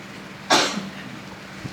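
A single sneeze bursts out sharply and loudly, then fades quickly, with no talk around it.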